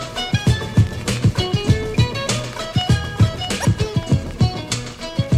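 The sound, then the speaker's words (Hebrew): Horse hooves clip-clop in a steady, even rhythm of many quick hollow taps over tonal music. “אור בזוויות אוטוטו נגמרת, והנה מגיע סוס שיקח אותי.”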